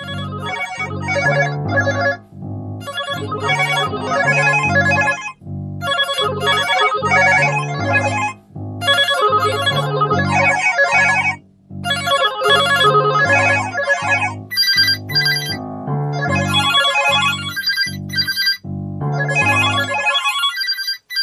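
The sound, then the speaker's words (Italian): Electronic buzzers trill with incoming communication messages in a room. Bright, loud bursts of warbling electronic ringing repeat in many pulses with brief gaps between them, and no voices are heard. “La camera esplose di trilli di cicalini, sintonizzandosi di colpo su vari garruli canali di comunicazione.”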